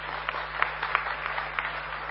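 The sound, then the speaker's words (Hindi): An audience applauds to welcome an honored guest at a spiritual gathering. The clapping is fairly soft, dense and even, with a few sharper claps standing out. “हम सभी खड़े होकर उनका करतल ध्वनि से स्वागत करेंगे।”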